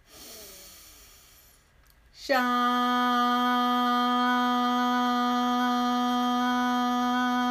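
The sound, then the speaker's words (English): A slow breath is drawn in for about two seconds, fading gradually. Then a steady, sustained tone begins abruptly and holds evenly to the end. “I see clearly what my next move is. Breathe in.”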